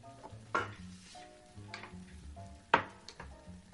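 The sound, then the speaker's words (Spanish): Garlic is chopped with a knife on a wooden cutting board in a kitchen: a few sharp, spaced knocks stand out over a soft, steady sizzle. “Walt pica el ajo sobre una tabla de madera.”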